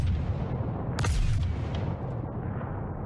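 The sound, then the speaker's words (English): Heavy booming spaceship weapon fire from a space combat video game, processed with strong compression, forms a dense, loud, rumbling roar with a sharp bright burst early on, then sustains a thick low-end blast texture. “The compression serves to illustrate the power of the weapons and the effect that they have when going beyond the limits of the listener.”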